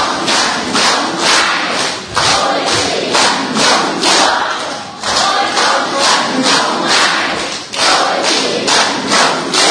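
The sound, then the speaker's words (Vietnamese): A crowd claps and stomps in steady rhythm during a Vietnamese worship song. The beats are loud and fast and continue throughout, with crowd voices mixed in and a few brief dips in the pulse. “Vừa vỗ tay vừa đóng theo nhịp với 2, 3.”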